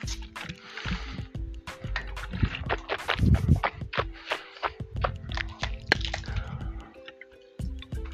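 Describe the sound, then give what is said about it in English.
Someone rinsing their mouth out with water: a busy run of wet swishing, squelching and dripping bursts that fluctuates in loudness, then thins out near the end. “And I'm about to rinse my mouth out, so give me 1 second, please.”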